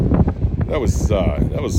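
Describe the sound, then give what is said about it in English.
Wind buffets a microphone outdoors as a man talks, adding a low, heavy rumble and rough gusting noise under his voice. “Man, where'd this wind come from? Where was this wind during the game?”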